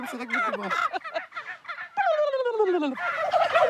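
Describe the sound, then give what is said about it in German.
Several male turkeys gobble on one spot, their loud, rattling calls overlapping and rolling one into the next like a wave, with bursts that fall in pitch and no talk. “Die, Männer die Hähne, die kollern. Und wenn viele Hähne auf einem Platz sind, dann hört sich das richtig, wie so eine Welle kommt es dann so.”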